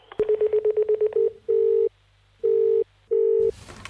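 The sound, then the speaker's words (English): Telephone keypad tones dial a number for an extras agency: a quick run of about eight short, evenly spaced beeps, then three longer, louder sustained tones separated by pauses, ending in a burst of noise. “For Ardmore Extra Agency, dial 8.”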